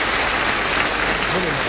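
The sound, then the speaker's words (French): Audience applause fills the whole stretch as dense, steady clapping at an even, loud level, with a voice briefly rising through it near the end. “On applaudit pour les succès qu'il vous a écrits.”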